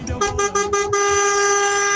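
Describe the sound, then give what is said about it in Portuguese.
A car horn honks in a few quick, evenly spaced toots and then holds one long, steady blast. The tone is loud and sustained to the end. “pela buzina aí, deve estar na rodovia. Vai, buzina aí!”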